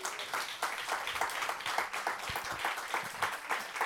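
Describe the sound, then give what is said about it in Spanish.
A church audience applauds with steady, dense clapping that stays even and moderately quiet for the whole stretch. “Muy bien, un aplauso.”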